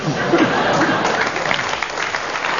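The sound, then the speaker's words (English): Audience applause, a steady wash of many hands clapping at an even level throughout, with no voices standing out. “10 marks there for the audience's rapturous reception of that one.”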